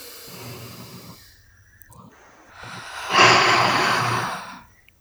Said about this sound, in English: Okay, deep breath.